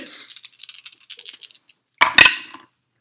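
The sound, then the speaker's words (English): Three dice rolled for a detection check in a tabletop game: a string of light, sparse rattling clicks, then a louder, brief clatter as they tumble and settle. “Make me a detection roll. Woohoo! Three dice.”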